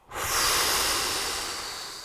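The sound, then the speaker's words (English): One big breath blown out forcefully during a guided breathing exercise: a single loud, airy hiss that starts sharply and fades slowly over about two seconds, with no voice. “Next breath, even more into the physical. Big inhale and blow.”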